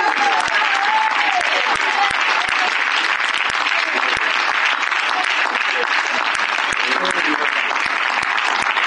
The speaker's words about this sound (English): You like somebody singing? Ah, you applaud.